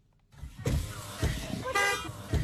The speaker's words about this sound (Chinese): 当天下午，狭窄的进村道路车辆通行缓慢